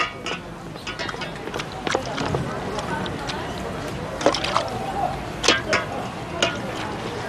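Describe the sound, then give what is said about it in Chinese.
Bowls are washed in water: gentle sloshing and splashing runs throughout, broken by a few sharper knocks and splashes toward the end. “我把这碗洗了”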